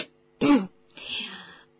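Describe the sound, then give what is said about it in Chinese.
A voice performs a character's throat clearing: one short, rough burst, then a softer, drawn-out raspy breath, with no words spoken. “菲利维教授清了清嗓子”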